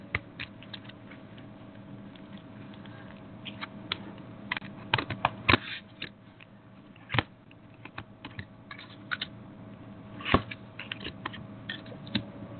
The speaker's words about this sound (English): Let's pull some cards and see what they have to say for you.